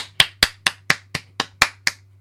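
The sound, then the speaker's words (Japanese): Eight sharp hand claps from one person celebrating a first anniversary. They are evenly spaced in a steady rhythm, crisp and moderately loud over a faint low hum. “拍手。”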